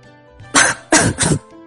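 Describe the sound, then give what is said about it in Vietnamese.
Three harsh, breathy coughs from someone choking on their own saliva, coming in quick succession, loud and alone with no talk. “Đáng thương thay cho Hoa Vân Thiên bị nước miếng của mình làm sặc”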